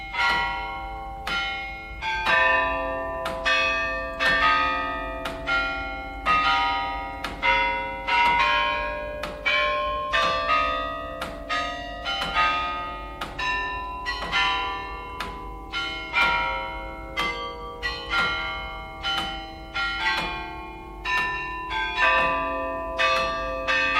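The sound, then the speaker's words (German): Bells from the tsarist era, dating to the 18th century, ring in a long run of rapid, evenly spaced strikes. Their bright, overlapping metallic tones sustain and blend into a continuous ringing hum, with no voices. “Колокола царских времен. 18 век. Das Glockenspiel der Zaren. 18. Jahrhundert.”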